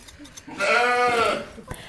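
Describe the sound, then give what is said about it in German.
A black sheep lets out a single drawn-out, wavering bleat, loud and rich in harmonics, with a few faint clicks and low sounds around it. “Das hier ist jetzt ein schwarzes Schaf.”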